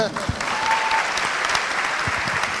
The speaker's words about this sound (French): On peut l'applaudir.